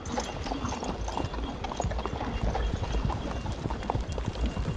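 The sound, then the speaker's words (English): Reindeer hooves gallop while pulling a sleigh, a steady, rapid clatter of hoofbeats running throughout at moderate volume. “As the sleigh began to move, even more toys came rushing out of their houses to watch. The reindeer broke into a gallop”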